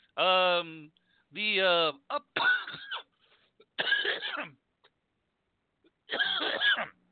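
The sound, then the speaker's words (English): A person coughs a few times. The first coughs are voiced and groaning, and harsher, breathier bursts follow with quiet pauses between them. “of course, now I got a cough.”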